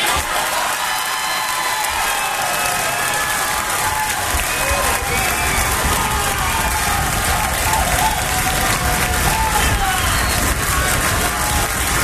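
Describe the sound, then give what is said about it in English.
Audience applause and cheering at a live show: sustained, dense clapping mixed with crowd noise and cheers, holding at an even loudness from start to finish. “I sense audience approval.”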